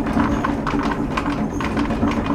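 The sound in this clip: A 40-horsepower hydraulic water turbine, installed in 1970 and driven by falling water, runs with a steady mechanical rumble overlaid by a loose, repeating knocking rhythm.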